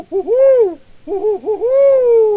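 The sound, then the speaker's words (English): Barred owl hooting, one of a pair nesting in an urban neighborhood: two loud, tonal calls, each sliding up and then falling away, with a brief gap between them and no voices. “if they're nesting, everybody in the neighborhood knows about it. They make so much noise.”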